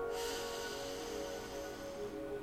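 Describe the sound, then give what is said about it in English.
A long, slow inhale through the nose, soft and airy, rising at the start and fading gradually over a quiet sustained musical tone. “Breathe in.”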